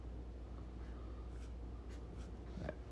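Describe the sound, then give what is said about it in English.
A pen scratches on paper while drawing a stick figure: soft, faint, short strokes and rasps, a few brief scrapes with quiet pauses between. “Mind you, I'm drawing a stick figure, but he has big biceps.”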